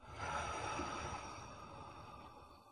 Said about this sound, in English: Let's take a deep breath in through the nose and a soft sigh through the mouth.